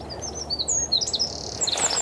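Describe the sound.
A small bird with a big voice sings outdoors in spring, a string of high, quick chirps and short trills that ring out fairly loudly over a steady low background hum.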